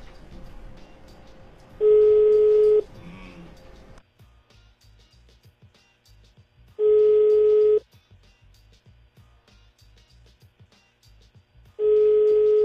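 Telephone ringback tones sound on an outgoing call: three steady, even one-second tones at regular intervals of about five seconds, each loud and clear, separated by low, quiet background noise.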